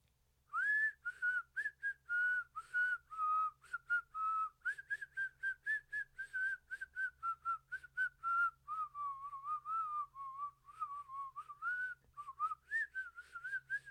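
A whistled melody sounding as a phone alarm, many short clear notes in a lilting, steady rhythm with small pitch leaps, heard alone without talk.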